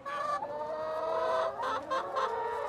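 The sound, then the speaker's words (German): A large flock of chickens clucks inside a simple greenhouse of plastic film stretched over bent metal poles on a US urban farm, a continuous overlapping chorus of clucks at moderate level with no talking. “Eine große Schar Hühner wärmt die Luft unter der Plane und die Pflanzen in einem abgetrennten Teil der zeltartigen Konstruktion.”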